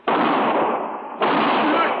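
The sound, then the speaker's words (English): Two harsh, loud gunshot blasts ring out during a Western-style holdup with a marshal present, each a sustained burst of noise, the second starting about halfway through, with no voices over them. “You shot my husband.”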